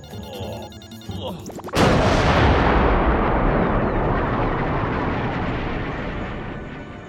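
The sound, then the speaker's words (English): A rocket fired into the jungle erupts as a sudden, loud roaring blast that follows a quieter tonal, mechanical passage, then sustains as a broad rumble and slowly fades. “Why did you fire the rocket aimlessly into the jungle?”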